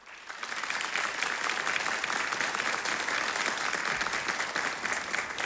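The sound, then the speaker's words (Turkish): Studio audience applauding the soloists and instrumentalists, a steady, dense wash of many hands clapping that swells in quickly and holds evenly to the end, with no talk over it. “Efendim bugün bizlerle olacak solistlerimiz ve sazlarımızı alkışlar mıyız?”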